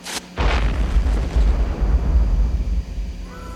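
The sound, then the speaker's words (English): A bomb explosion in a film scene: a sudden loud blast that rolls into a heavy, deep rumble, sustained for about three seconds before easing off. “That was a bomb? That was really a bomb?”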